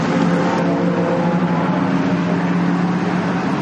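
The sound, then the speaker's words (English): Vintage race cars roaring around a track during a race session with several classes at once, a dense, continuous engine drone holding at a steady loud level throughout. “After 9, and you can tell that the races have started.”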